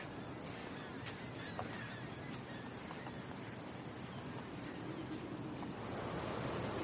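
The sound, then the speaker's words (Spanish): Big ocean waves by sea cliffs and dunes in early morning: a steady, full roar of heavy surf with wind noise mixed in, holding a constant level without distinct breaks. “en el mar hay un gran oleaje”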